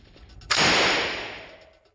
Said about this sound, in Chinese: 这是经典的 MP40 式德国冲锋枪。